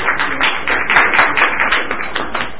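An audience claps for youth award winners at a ceremony, a dense, rapid patter of hand claps that stays fairly even and bright for a few seconds.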